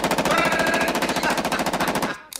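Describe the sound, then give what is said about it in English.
An Austrian-made Steyr AUG rifle fires a loud, rapid automatic burst of many shots in an even, fast rhythm for about two seconds. It then cuts off, followed by a couple of faint clicks. “Now, this here is a Steyr-AUG. Steyr-AUG's a bad motherfucker. Listen.”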